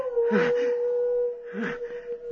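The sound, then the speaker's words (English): Wolves howling: one long, steady, sustained howl holds an even pitch through the whole clip, with two brief, rougher cries laid over it. “That howl. It's wolves.”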